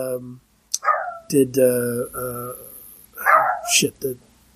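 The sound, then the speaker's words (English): A dog barks a few times behind a man who keeps talking, the short sharp yaps coming in brief bursts between and under his voice. “No, it was the dog is barking behind me.”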